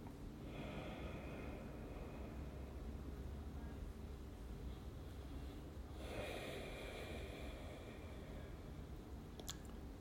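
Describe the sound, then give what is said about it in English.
Slow breathing in and out during a quiet prayer moment: a few long, soft breaths with steady airy noise and a brief pause between them. No voices are heard. “Again, I take a few breaths.”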